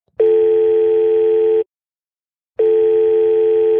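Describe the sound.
A Skype call ringing tone: two loud, steady electronic tone bursts, each lasting about one and a half seconds, separated by a second of silence, with no voices.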